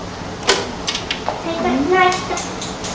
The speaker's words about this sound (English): Any knife? Yeah, have you got any knife here? Yeah. Oh, so many forks and spoons.